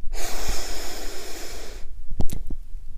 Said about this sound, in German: Nimm nun einen tiefen Atemzug durch deine Nase